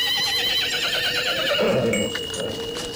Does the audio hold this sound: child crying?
no